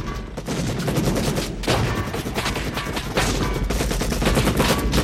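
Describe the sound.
Dense, continuous gunfire from guerrillas shooting in an action film scene: rapid overlapping shots and bursts that stay loud and unbroken throughout, with no pause between volleys.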